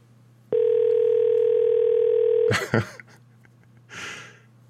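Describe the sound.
A phone call ringing out unanswered: one long, steady mid-pitched tone lasting about two seconds, then cutting off, followed by a few short breathy noises.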